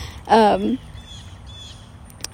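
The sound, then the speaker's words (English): A pet bird lets out one short, harsh squawk. Quieter room noise with a few faint clicks follows. “Bird, I swear to God, this bird”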